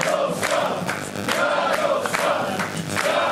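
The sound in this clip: A crowd cheering at the Law and Justice party's election night rally in Poland: a loud, continuous roar of many voices pulsing in a steady rhythm, like chanting.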